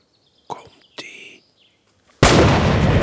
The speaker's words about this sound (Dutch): Vingers in de oren. Wat? Vingers in de oren. Ga je schieten? Ja. Hij gaat schieten.